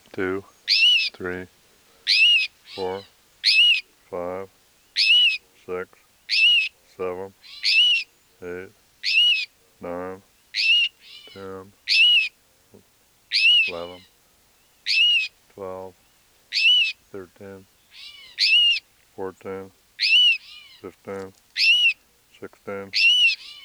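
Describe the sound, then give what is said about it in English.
A female rufous-sided towhee gives cries and alarm notes near its nest: many sharp, high, clear calls repeated in a steady rhythm, each one loud and brief with short gaps between them, and no other sound. “Here are cries and alarm notes of two rufous-sided towhees, and probably near their nest. This is the female.”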